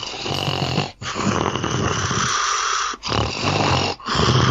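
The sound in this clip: A voice imitates the quick, rough breathing of a sleeping man, sounding like snoring: a few loud, noisy breaths separated by short gaps.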